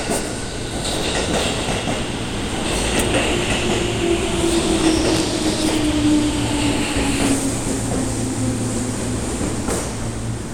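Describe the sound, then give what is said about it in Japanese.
A ten-car Shonan Liner commuter train bound for Odawara pulls into a station platform. Its wheels make a steady, loud rumble and clatter throughout, with a faint high brake squeal through the middle. “この列車は10両です。 11番線が黄色い線までお下がりください。湘南ライナー7号小田原行き到着です。”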